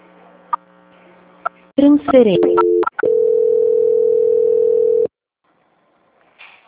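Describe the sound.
Telephone tones sound as a call is transferred at a bank correspondent credit company. A short run of shifting, gliding beeps leads into a loud, steady, buzzy tone lasting about two seconds, which cuts off into near silence.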